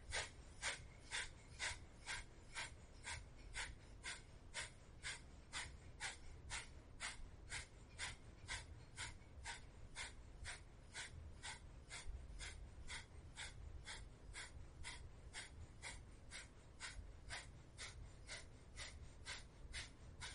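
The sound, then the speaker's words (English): Kapalabhati yoga breathing: rapid, forceful nasal exhalations in a steady, even rhythm of about two per second, sustained for the whole stretch with no talk. “So Kapalabhati, 20 seconds.”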